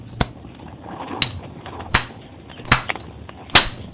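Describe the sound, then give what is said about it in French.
Five sharp, cracking blows struck by soldiers at a blindfolded man, spaced roughly evenly, each a loud whip-like smack with a quick decay, plus a faint extra click after the fourth. “Il lui bande les yeux et il le frappe.”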